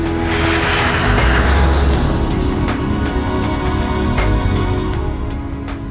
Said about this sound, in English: As dusk approaches, Heathrow, Europe's busiest airport, quietens down for the night.